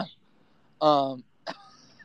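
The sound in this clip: Someone clears their throat with a short, voiced, raspy burst followed by a quicker, lighter one, each standing alone against near silence.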